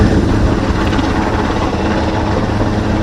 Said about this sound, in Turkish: Ardından sahil güvenlik helikopterleri devreye girdi. Denize arama kurtarma kitleri bırakıldı. Soğuk sularda yaşam mücadelesi veren kazazedeler şişme platformlara tutundu. Bir yaralı helikopterle denizden çekildi.